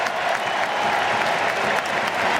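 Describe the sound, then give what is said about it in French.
A stadium crowd gives an ovation for a football player leaving the pitch as a substitute: loud, dense, continuous clapping and crowd roar, steady throughout. “qui va laisser sa place à Jean-Philippe Mateta. Ah, belle ovation.”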